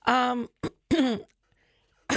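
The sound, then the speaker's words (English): Someone clearing their throat with a few short voiced rasping bursts separated by brief pauses, fairly loud and alone. “I got a little frog in my throat.”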